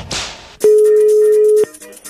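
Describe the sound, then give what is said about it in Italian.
A telephone tone sounds after a dropped call: one steady, mid-pitched electronic beep held for about a second, framed by short bursts of line noise. “Ragazzi, è caduta la linea?”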